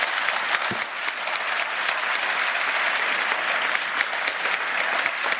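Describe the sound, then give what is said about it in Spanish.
Sustained audience applause at a political event honouring invited guests, a thick, even roar of many hands clapping that holds steady and loud throughout. “Quisiera, por favor, que le diéramos un aplauso a quienes nos acompañan”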